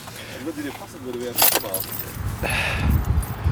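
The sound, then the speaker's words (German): Keys jangle while a car is being locked, with bright metallic jingling in a few bursts. A man's voice is heard briefly before them. “Ich sollte mein Auto auch noch abschließen. Moment.”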